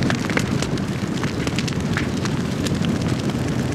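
A fire burns with a loud, steady roar, dotted with many sharp crackles and pops. The level stays constant and no one speaks.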